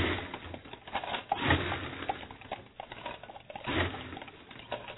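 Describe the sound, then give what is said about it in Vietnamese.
Ice cubes being dropped into glasses to prepare passion fruit tea, producing soft, irregular clinks and rattles that come in scattered bursts. “Cho nên là phải cho đá vào nha. Cho đá trước. Đây.”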